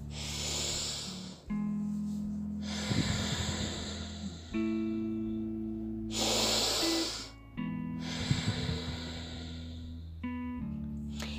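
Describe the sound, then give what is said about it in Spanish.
Slow breathing in and out through the nose during a guided breathing exercise, several soft airy breaths at an even pace, heard over sustained, gentle music tones. “La respiración tiene que ser inhalar por la nariz, exhalar por la nariz.”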